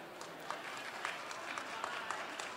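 Applause from an event audience welcoming two performers about to play a piece they composed for the occasion: a faint, steady wash of clapping with a few sharper claps standing out.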